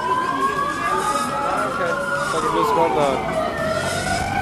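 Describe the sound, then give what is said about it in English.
A loud emergency-services siren wails continuously from start to finish, its tone sweeping slowly up and down in a steady cycle. “And here's an emergency services siren.”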